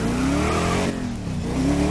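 Video game car engine as a car races around a figure-eight track, a loud steady droning whine that sags briefly midway before picking back up.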